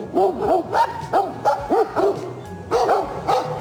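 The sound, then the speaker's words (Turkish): Stray dogs bark while fighting bears that came down from the mountains onto a road in a national park near Ankara. There are many rapid, overlapping barks and yelps in quick bursts, loud and agitated, with brief gaps between flurries. “Sokak köpekleri ve ayıların kavgası kameralara işte böyle yansıdı.”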